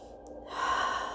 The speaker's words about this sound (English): So for the next few breaths, make them strong